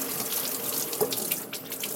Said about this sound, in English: Now let me wash off my cutting board.